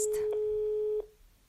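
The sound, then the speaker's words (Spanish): An electronic telephone tone sounds as a call is placed: a single steady, pure beep lasting about one second, then it cuts off abruptly into near silence. “ya en este mismo momento estoy llamando a mi compañero”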